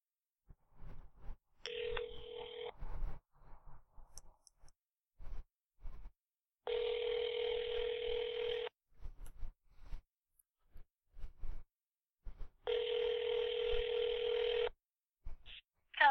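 An outgoing telephone call to a football team's training facility: a steady ringback tone sounds three times, each burst about two seconds long, separated by quiet gaps with scattered faint clicks.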